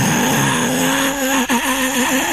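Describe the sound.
A vehicle scraping after a bump, heard as a loud, harsh, continuous grinding screech that holds steady, with a brief dip partway through, and no voices.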